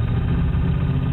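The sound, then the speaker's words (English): A car engine with a worn rod bearing runs with a steady, dense, low rumble throughout. The knocking blends into the continuous engine noise rather than standing out as separate clear beats. “Sounds to me like it's a rod bearing.”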